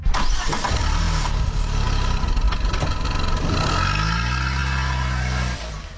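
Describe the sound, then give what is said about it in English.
A car engine starts and roars, a loud, continuous low rumble with shifting pitch as it revs, holding steady before easing off at the very end. “Does the roar of an engine bring about an adrenaline rush for you?”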